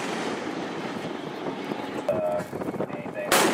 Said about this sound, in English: This is the sound of a US military ship firing on an Iranian-flagged cargo vessel.